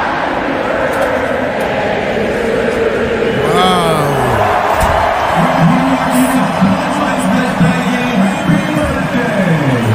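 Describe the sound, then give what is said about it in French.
A stadium crowd of 50,000 American football fans cheers for a fan's birthday in a loud, continuous roar. Now and then a clearer voice or singing line rises above it. “Elle a été acclamée par 50 000 supporters qui lui ont tous souhaité un joyeux anniversaire.”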